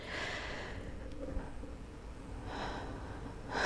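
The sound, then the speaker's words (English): A deep breath taken before speaking: soft, airy breathing that is faint overall, with a breathy rush at the start and another near the end. “To take a deep breath so that I can get into it.”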